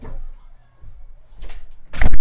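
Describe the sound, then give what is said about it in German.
A window being closed: a soft rustle and brief scraping movement, then a loud, heavy thud as it shuts at the end. “Sie hat das Fenster zugemacht. Ich glaube, man hat's gehört.”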